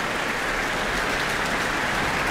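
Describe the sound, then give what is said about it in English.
Dense, continuous applause fills a town hall after a Mendelssohn violin concerto, a steady, even wash of clapping at moderate level with no voices. “Lots of applause here in the town hall. And enthusiasm from the orchestra too, who are stamping their feet for Bielman to come back to the stage.”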